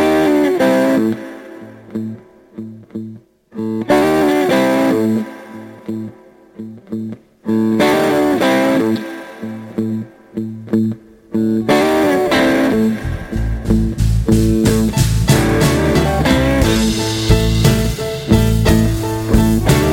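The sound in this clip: A blues band plays a tune with full instrumentation: loud, continuous music with distorted, effects-laden tones and strong rhythmic accents. The texture grows denser and busier in the final third. No voices are heard.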